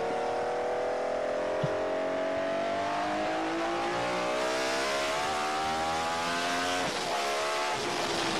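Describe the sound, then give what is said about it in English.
A car engine revs loud and continuous through downshifts and off-throttle running, its droning note climbing steadily in pitch with a brief break late on. “listen to those downshifts.”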